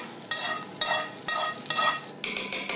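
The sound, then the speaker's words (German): Roasted onions and parsley are stirred into meat in a hot pan, producing a few bursts of sizzling, scraping stir noise with frying crackle underneath. “Ja, die haben wir jetzt wunderbar jetzt geröstet. Und das geben wir jetzt hier zum Fleisch dazu.”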